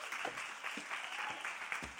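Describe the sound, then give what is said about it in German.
Audience applause at a church gathering as a speaker is welcomed onto the stage: a steady, faint wash of many hands clapping that keeps an even level throughout, with no voices standing out. “Geben wir ihr doch einen Applaus, schon jetzt, genau, komm rauf.”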